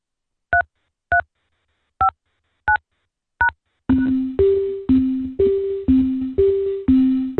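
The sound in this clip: Telephone keypad tones while a card number is entered into an automated phone attendance system: five short, evenly pitched beeps with gaps between them, then a louder unbroken run of about seven longer tones that alternate between two pitches.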